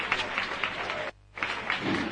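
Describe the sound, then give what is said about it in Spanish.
Street crowd applauding the bearer team as they lift a float during a religious procession: a steady wash of clapping, cut by a brief silent gap near the middle before resuming. “Aplausos también para la cuadrilla”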